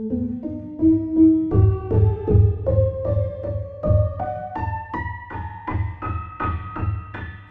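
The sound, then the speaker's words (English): Synthesizer at condition setting 10 playing a C major scale: a series of notes climbing step by step, with a pulsing low tone underneath, moderately loud throughout. “So that's condition 10. So a C major scale sounds like this now.”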